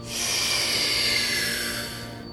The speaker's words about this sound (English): 35 breaths with me. Here we go. Inhale.